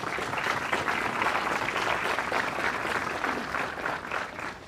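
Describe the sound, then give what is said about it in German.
Audience applause at a memorial event, a steady wash of many hands clapping held at an even level before tapering off near the end. “Deswegen möchte ich erstmal einen ganz großen Applaus, dass Sie heute sich getraut haben, hier dabei zu sein.”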